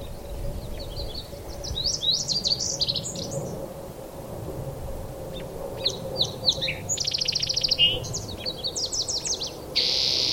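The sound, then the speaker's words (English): A song sparrow singing: two bright, high phrases of quick chips and buzzy trills separated by a pause, with the later phrase longer. The song is faint over a low, steady background rumble. “Song Sparrow.”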